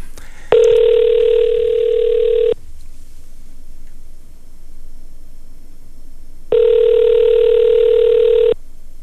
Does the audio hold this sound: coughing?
no